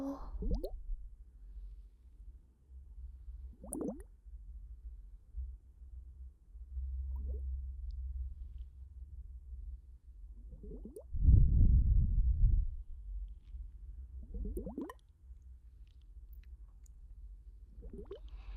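Water dripping in a handful of soft, hollow plops at slow, irregular intervals over a low steady background hum, with one louder, fuller splash near the middle.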